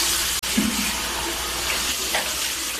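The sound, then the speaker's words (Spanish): Tap water runs steadily into a sink while a man washes his face and hair. A continuous broad rushing sound carries faint shifts of splashing throughout. “las imágenes muestran al narcotraficante lavando su rostro y su cabello en un lavabo”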